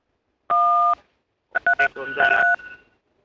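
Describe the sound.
Telephone keypad dialing tones while placing a phone call: one long steady two-note beep, a short pause, then a rapid cluster of several quick tones, clear and loud with no talking.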